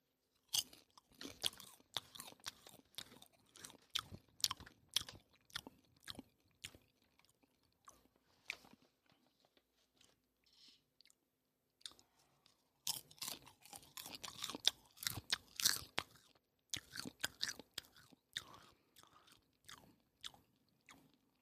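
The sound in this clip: Someone chews food cooked on a plank, making many soft, crisp crunches in irregular bursts with a quieter lull midway. Nobody talks.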